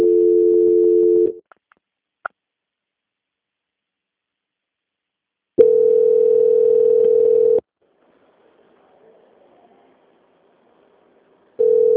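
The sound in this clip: Telephone tone during a call transfer to a quality-control line: three bursts of steady mid-pitched tone separated by silence and a few clicks, with faint hiss between the second and third bursts. No voices.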